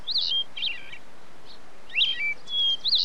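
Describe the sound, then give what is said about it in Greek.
Bird song: several bright, high chirps and short warbled phrases come in separate bursts over a faint, quiet hiss, with brief pauses between them and no other sounds. “Αυτό το πουλί με μαγεύει.”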